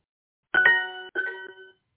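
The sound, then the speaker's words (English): A simple bell used as a timer gives a bright, ringing tonal chime in two short strokes, the second softer, each quickly fading into silence. “So this is the bell.”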